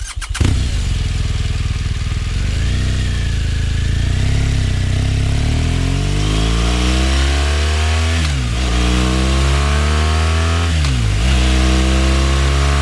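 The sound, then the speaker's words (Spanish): A BMW 1200 motorcycle engine catches with a burst, then settles into a steady, deep rumble. Near the end come two quick throttle blips that dip and climb in pitch. “El motor de esta BMW 1200 solo va a parar ya, ya, ya, ya, ya, en cuanto llegue”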